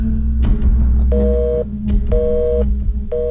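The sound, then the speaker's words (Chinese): A telephone rings on the line with no one picking up: three short, evenly spaced tone bursts repeat about once a second over a steady low hum. “终于，电话自动切断了”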